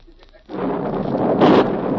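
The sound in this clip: An explosion sound effect in a radio drama follows a lit fuse: after a brief quiet lead-in, a broad, rumbling blast bursts in and roars on loudly to the end.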